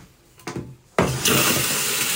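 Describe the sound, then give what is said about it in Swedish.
A toilet flushes in an abandoned school: a sudden loud rush of water that surges and stays strong to the end, after a brief softer clunk. “När P4 Göteborg är inne i skolans lokaler går det att sätta på torkskåpen och spola i toaletterna.”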